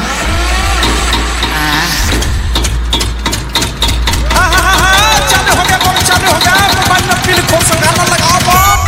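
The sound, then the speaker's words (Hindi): A generator engine cranks and catches with a rapid train of loud firing pulses, then keeps running amid other busy sound. “थोड़ा generator यार ले लिया था, sorry इसके लिए, अभी हम तेल रह के जनरेटर चालू करता है।”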